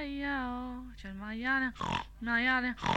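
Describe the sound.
A pig grunts: drawn-out, tonal oinking squeals with sliding pitch alternate with a couple of short, rough snorting grunts.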